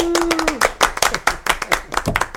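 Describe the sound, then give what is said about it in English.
A quick round of applause in a classroom setting: a short burst of scattered, uneven handclaps, with a voice briefly heard at the start. “a quick round of applause for Dr. Schulman.”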